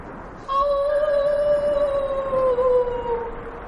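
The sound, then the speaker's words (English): An adult whale calls out in a single long, moaning harmonic tone that begins suddenly and holds for about three seconds. Its pitch sinks slowly before the call fades, and no other sounds accompany it. “This particular communication takes the form of a castigation. The adult is chiding his youngster for some misdeed.”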